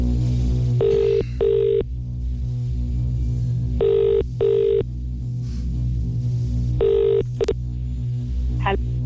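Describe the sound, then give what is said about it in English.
A telephone line ringing out while a number picked at random is called. Three double rings sound, the last pair cut short, each pair a steady buzzing tone with quiet gaps between, over a faint low hum. “So I'm going to pick somebody at random, dial the number.”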